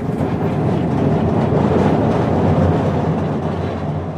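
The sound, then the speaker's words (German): An old mine railway train rides through a dark tunnel deep into a salt-mine mountain: a loud, steady low rumble with a faint rattling texture that runs throughout, with no voices. “Von dort fährt eine alte Grubenbahn durch einen dunklen Stollen tief in den Berg”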